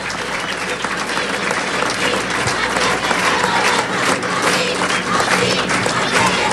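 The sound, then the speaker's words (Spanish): Applause from a crowd at a political event, honoring a person: dense, sustained clapping that stays loud and even throughout, with faint crowd voices mixed underneath. “Quiero pedir un aplauso para este compañero, General Manuel Quevedo”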